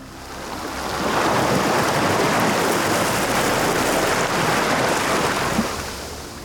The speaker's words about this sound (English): The final wave washed away the sediment, leaving behind a hairless youth with sandy skin